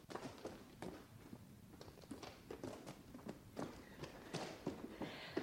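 Children run to the shop in quick, light footsteps: many rapid, faint, even steps in a steady patter that continue throughout.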